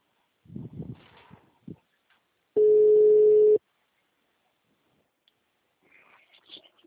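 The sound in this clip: A phone line tone after a dropped call: a single steady, mid-pitched beep lasting about a second, with faint rustling and movement noises before and after it.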